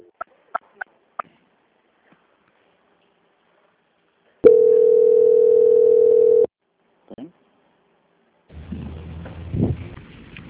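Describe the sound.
Telephone call transfer tone: one steady, mid-pitched tone lasting about two seconds. A few sharp clicks come before it, and a burst of muffled noise follows.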